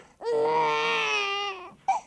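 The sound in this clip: A baby crying: one long, loud, sustained high wail with a steady pitch, breaking off sharply, followed by the brief start of a second cry.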